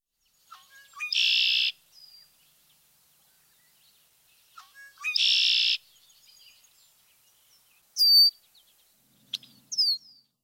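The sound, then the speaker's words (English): Red-winged blackbird song: two separate buzzy, trilled phrases spaced a few seconds apart, each opened by short chips, followed later by a few thin, high-pitched whistled calls. “Red-winged blackbird.”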